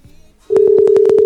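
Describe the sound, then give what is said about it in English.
A telephone ring tone: after a brief near-silent moment, a loud, steady electronic tone cuts in abruptly, pulsing rapidly and evenly to the end. “Can you hear that? Is that working? Yes. Yay. I hear a ring.”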